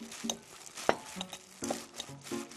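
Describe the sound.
Pre-salted vegetables are lightly tossed with seasoning in a bowl, giving irregular stirring and scraping sounds with one sharp clack.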